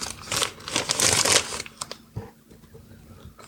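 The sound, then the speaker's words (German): A package being torn open: crinkling, rustling bursts of packaging build to a dense tearing rush early on, then a few sharper crackles follow more quietly. “So, jetzt reiße ich es auf.”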